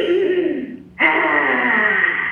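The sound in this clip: A deep breath taken during a simple meditation: two long, airy rushes of breath separated by a brief pause, fairly loud and with no talk.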